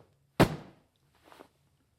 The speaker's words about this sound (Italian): La testa, prova la linea. Ora due colpi rapidi.